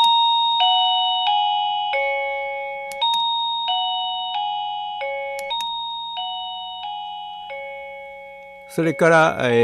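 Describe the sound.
A battery-free wireless doorbell, its button powering a small generator, plays a clear electronic ding-dong melody of many bell-like notes, each fading before the next. A voice begins talking as the tune ends.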